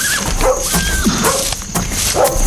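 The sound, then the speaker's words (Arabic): Dogs bark and yip loudly in a continuous run, with whining, whimpering tones woven between the barks. “عجب الكلاب تنبح من هو اللي جاي”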